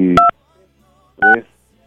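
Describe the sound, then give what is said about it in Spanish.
Two short DTMF keypad tones as a telephone number is dialed for a birthday call. Each is a brief, bright dual-pitch beep, about a second apart, with a voice overlapping them. “Va, vamos a marcarle.”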